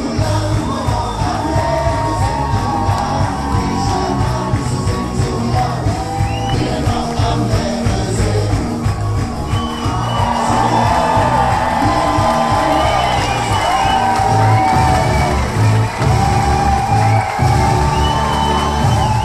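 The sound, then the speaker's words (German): A carnival crowd in a festival tent cheering and singing along to a men's ballet performance: loud, continuous massed voices and shouts over a steady rhythmic pulse that carries on throughout. “Im Festzelt steppt der Bär. Die Zuschauer stehen auf den Stühlen und wippen in den Knien. Sie klatschen und singen mit.”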